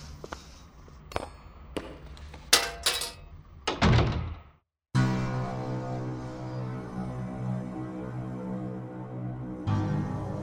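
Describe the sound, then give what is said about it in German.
Weapons are dropped into a wooden chest in a series of hard thunks and clattering knocks at an uneven pace. After a brief silence a steady low hum follows. “Legt eure Waffen dort in die Kiste.”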